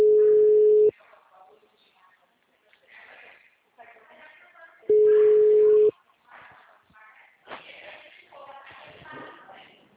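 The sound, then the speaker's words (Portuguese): Telephone line tone after a dropped call: two long, steady mid-pitched beeps, each about a second, separated by several seconds of people talking. “É o Charles, a gente estava conversando, especialista financeira, a ligação caiu”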